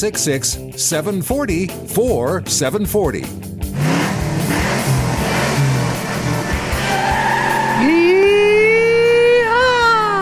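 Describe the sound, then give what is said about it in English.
A car tire-screech sound effect: loud skidding squeals with wavering tones give way to a long, sustained, high-pitched squeal over engine noise in the second half. “Wow, that's one way to wake up. Well, it really is, and although the road is kind of wet, so I don't know if you get the same screech.”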